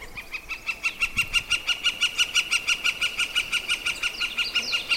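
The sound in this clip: A yellow-shafted flicker woodpecker calls in a long, rapid, evenly spaced run of sharp, high notes, a steady unmusical series held at the same pitch and loudness from start to finish, heard alone.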